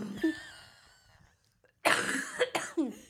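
Someone coughs up phlegm in a few harsh, wet bursts packed close together after a quiet stretch, the coughs fairly faint overall.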